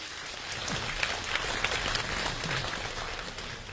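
Audience applause as a performer is welcomed onstage at a Beijing comedy crosstalk show in 2018, a thick, even rattle of many hands clapping, like rain, sustained at a steady level throughout.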